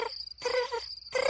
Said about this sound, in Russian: Дедушка, а это кузнечик стрекочет?